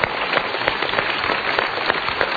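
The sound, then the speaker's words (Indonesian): An audience applauds at a live talk with a dense, continuous, rain-like patter of many hands, loud and steady throughout with no distinct individual claps. “Tepuk tangan dahulu untuk pilihan Anda.”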